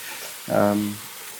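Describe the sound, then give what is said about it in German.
Onions frying in sunflower oil with young garlic give a soft, steady sizzling hiss throughout, briefly overlapped midway by a short voiced tone. “Sonnenblumenöl drin. Ich habe einen jungen Knoblauch dazu geworfen. Ein schönes Aroma. Und jetzt rösten wir diese Zwiebeln an.”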